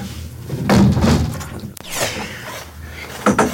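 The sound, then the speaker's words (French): A window is closed with rustling handling noise and dull thumps, and a single sharp click lands partway through. “Je vais fermer la fenêtre.”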